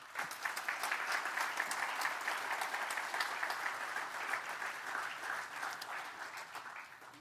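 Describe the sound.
An audience applauds to welcome a guest speaker, with dense, steady clapping from many hands that keeps up for several seconds and eases slightly toward the end.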